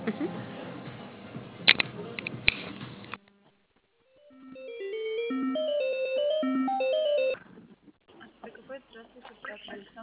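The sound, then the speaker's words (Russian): A short melodic ring tune plays over a phone line as a call is transferred to a call centre. It follows a brief silence and runs steadily for about three seconds, with voices talking on the line before and after it. “Секундочку, я переведу вас на колл-центр. Не отключайтесь, пожалуйста, для заказа.”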